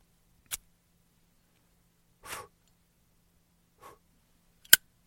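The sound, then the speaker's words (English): Lighting a cigar: a few faint, short clicks and soft brief puffs separated by quiet gaps, ending in one sharper, louder click. “All right, let me go ahead and light up my stogie this week.”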